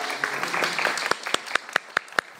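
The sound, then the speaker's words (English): Audience applause in a church: a dense patter of clapping that thins into a few sharp, evenly spaced claps toward the end. “Should we give them a little round of applause?”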